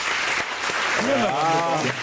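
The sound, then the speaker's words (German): Audience clapping to vote in a show of hands at a public discussion; a brief burst of applause, then a voice speaks over the tail of the clapping. “Wer ist für eine Randbebauung? Mal klatschen bitte.”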